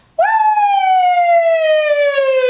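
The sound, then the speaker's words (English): A voice imitates a siren with one loud, sustained tone that glides slowly downward in pitch from start to finish, heard alone. “We're gonna start with the siren. And we're going to start at the top and come to the bottom.”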